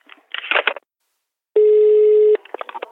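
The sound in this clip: A single steady telephone ringback tone sounds for under a second as a call is placed to a community centre. People talk before and after it.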